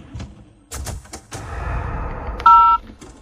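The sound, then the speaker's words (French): A telephone keypad sounds a single loud DTMF tone while an ID number is dialed. The short steady two-pitched beep comes after a few soft thumps and handling noises. “Veuillez composer les 7 chiffres de votre identifiant.”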